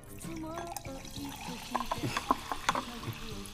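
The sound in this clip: A bottle of Wilkinson carbonated water is opened and poured, giving watery splashing and a few sharp fizzy clicks and pops, with people talking over it.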